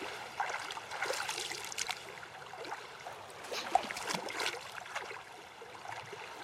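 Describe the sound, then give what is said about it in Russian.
Soft splashing and sloshing as young girls wade through water, faint and irregular, with scattered light splashes and one sharper splash near the middle. “Младшие девочки ходят по воде.”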